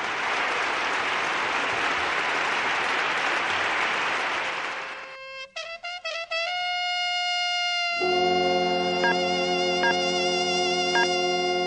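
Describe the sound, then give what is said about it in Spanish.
A studio audience applauds in a steady, dense wash for about five seconds. The clapping then gives way to bright electronic musical tones and a sustained chord. “un aplauso para Samu”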